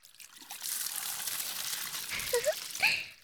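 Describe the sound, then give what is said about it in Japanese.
Warm water is poured to rinse soap lather off after washing, a steady trickling stream that swells into a couple of louder splashes near the end. “洗い終わりました。じゃあ流しちゃいますからね。”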